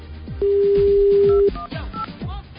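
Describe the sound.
A telephone number being dialed: a steady tone holds for about a second, then a few short keypad tones follow over a low, pulsing background.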